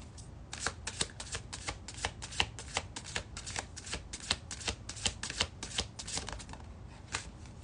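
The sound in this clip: Tarot cards being shuffled before a card is drawn, making a quiet, steady run of many rapid papery snaps and flutters with no voices.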